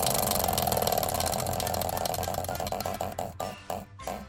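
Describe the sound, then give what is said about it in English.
A spinning prize wheel rattles with rapid ticks that run together at first, then become louder, separate clicks spaced further and further apart as the wheel slows toward a stop. “give that wheel a spin. Let's find out next week's word.”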